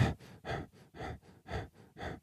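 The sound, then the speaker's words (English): A person demonstrates shallow breathing while stooped over: several quick, airy breaths in a steady, hurried rhythm, soft and gasping, with no talk. “You're constantly breathing like this, stooped over.”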